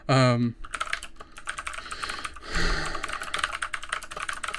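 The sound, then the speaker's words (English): Rapid typing on a computer keyboard: a steady run of light key clicks that starts after a brief vocal sound. “This is going to take a second to type.”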